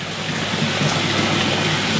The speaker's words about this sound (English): So this tank has a few thousand litres. That liquid, though, recirculates continuously.